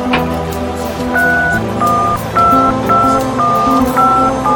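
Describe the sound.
Telephone dialing tones for a phone call ring out loudly as a string of short, steady beeps of differing pitch over a sustained lower tone.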